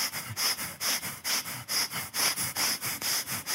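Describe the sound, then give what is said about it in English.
Deliberate breathing in through the nose: many quick, rhythmic sniffs in a steady run, each a short, fairly loud burst of air with brief gaps between, and no talk. “And I'm like, oh, I'm getting my breathing in.”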